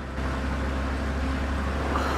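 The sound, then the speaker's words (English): Low, steady engine hum of a police car driving up alongside another vehicle, a continuous droning rumble with no siren, holding at a constant level throughout. “A police car drives up alongside her.”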